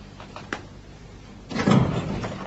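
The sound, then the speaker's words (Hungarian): A window being opened as a storm passes: a faint knock near the start, then a louder rustling, scraping rush that swells and slowly fades. “Szónyára néz, majd kinyitja az ablakot.”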